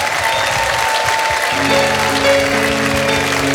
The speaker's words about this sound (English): If you would, give a warm welcome, ladies and gentlemen, Giada Valenti.